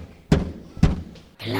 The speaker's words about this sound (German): Da kam der böse Wolf daher und klopfte an die Tür.